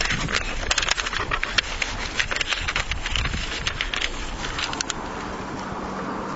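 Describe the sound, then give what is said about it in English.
Paper notes rustle and flip in strong wind, a steady rough roar of wind buffeting the microphone, dotted with many sharp, crackly paper rustles that thin out near the end. “This wind has forced me to flip my notes around here a little bit.”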